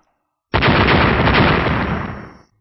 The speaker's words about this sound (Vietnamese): Mấy chục tiếng nổ chấn động đất trời liên tiếp vang lên